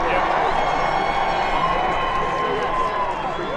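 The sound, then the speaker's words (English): Football crowd of thousands in the stands cheering, a continuous broad roar of many voices with shouts and some clapping mixed in, holding steady in loudness from start to finish. “More than 7,000 football fans were in the stands, watching the coordinated chaos unfold.”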